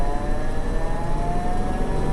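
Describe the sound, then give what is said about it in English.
A Ford Bronco engine runs in high gear, giving a constant, loud, even drone with a steady whirring hum and no changes in pitch or rhythm. “That's the Ford Bronco in high gear.”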